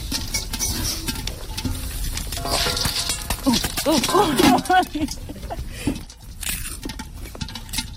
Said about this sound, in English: Wow, popcorn on a real fire. I think you should just take the lid off. No, guys, they're all gonna pop off.